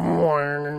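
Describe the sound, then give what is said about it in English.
A human voice imitates an old computer turning on with a brief, sustained hummed tone over a steady low drone, like a buzzy electronic startup hum. “That's the sound of the computer turning on.”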